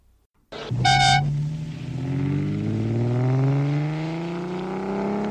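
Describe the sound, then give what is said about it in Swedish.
A car with a 4-litre straight-six engine roars as it drives off. A short horn-like toot is followed by a deep, throaty engine note that climbs steadily in pitch and stays loud as the car pulls away. “Den raka 4 liter sexan dånar djupt under avfärden.”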